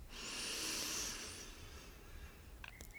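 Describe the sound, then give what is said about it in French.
A deep breath drawn in through the nose during a guided breathing exercise. It is a single soft, breathy hiss that swells and then fades within about a second and a half, with no talk. “Je vous invite maintenant à prendre une grande inspiration par le nez.”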